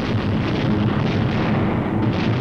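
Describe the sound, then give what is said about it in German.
Explosions and fires in Nuremberg during a wartime bombing raid, heard as a dense, continuous rumbling roar that stays loud and even throughout, with no separate blasts standing out. “A city is literally being wiped out before your eyes. Explosions and fires are sucking the oxygen from the air.”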